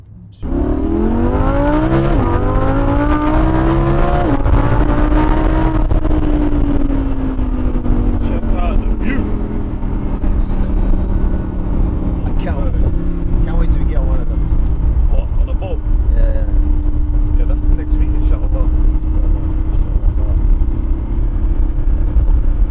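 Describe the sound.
Engine of a convertible car driven with the top down, its pitch climbing steeply over the first few seconds as it accelerates, then settling into a loud, steady drone with continuous wind and road noise.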